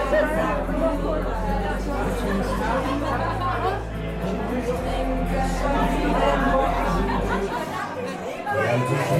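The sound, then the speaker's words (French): Party guests chatter at a Fall of the Berlin Wall anniversary evening held each 9 November, an even babble of overlapping voices over a low steady hum. “Et ce que vous entendez, c'est la bande-son de cette soirée chute du mur.”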